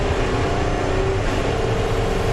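A car accelerates with its nitrous oxide boost engaged, making a loud, continuous engine roar with a steady low drone under dense rushing noise throughout.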